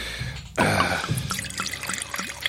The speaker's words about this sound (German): Also der Wein fließt, die Loire fließt